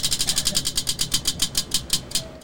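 A prize wheel spins, its pointer ticking in a rapid, even run of many clicks that space out slightly toward the end as the wheel slows.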